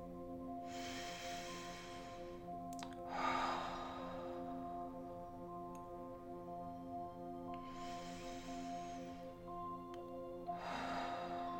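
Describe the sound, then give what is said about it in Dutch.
Slow, deep breaths in and out during a guided relaxation exercise come as a few soft, airy swells. They are faint and rest over a quiet, sustained musical drone. “Met die plek in je mind ga je 3 keer diep in- en uitademen.”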